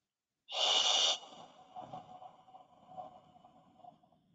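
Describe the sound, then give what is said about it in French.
A deep breath drawn in sharply, part of a guided breathing exercise: one loud, breathy rush of air lasting just over half a second, then softer, uneven breath noise trailing off. “D'accord on inspire.”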